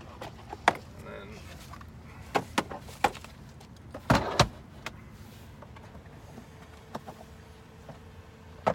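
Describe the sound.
A portable toilet box made in America folds open with a string of light clicks and snaps, then a louder rattling clatter midway, followed by a few more faint clicks.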